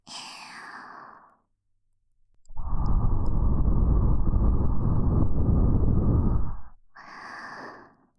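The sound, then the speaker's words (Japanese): Soft, breathy blowing into an ear. A short gentle breath comes first, followed by a longer, stronger airy blow lasting several seconds, then another softer breath. “わらわに耳をふうふうされて感じてるんじゃない？じゃあ反対側も。”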